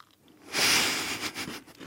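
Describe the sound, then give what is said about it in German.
A loud, crunchy bite into a homemade cookie, followed by a few quieter crunching and chewing sounds, with no talking. “Ich versuche jedes Jahr Plätzchen zu backen. Muss ich übrigens gleich mal eins probieren von denen, die du mitgebracht hast.”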